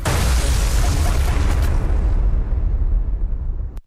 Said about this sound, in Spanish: Tiran bombas.